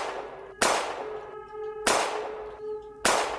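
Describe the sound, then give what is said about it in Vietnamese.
Police guns fire three sharp, loud gunshot bangs at roughly even intervals, each with a bright, ringing metallic decay, with no talk. “súng của những cảnh sát đằng sau cũng bắt đầu phát ra tiếng pằng pằng.”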